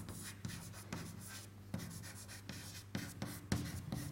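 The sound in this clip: Writing on a board during a physics lecture: many scratchy strokes in irregular bursts, fairly faint, with a steady low hum underneath and no talking.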